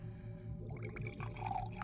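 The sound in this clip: Water trickles faintly as it is poured into a glass for a drink, a short, quiet stream with light splashing and dripping that builds a little toward the end.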